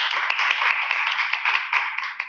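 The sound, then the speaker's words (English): A round of applause for a grade school teacher at an evening event. The clapping is brisk and dense and holds at an even level throughout. “We also give a round of applause for Brittany Muller, who teaches in our grade school.”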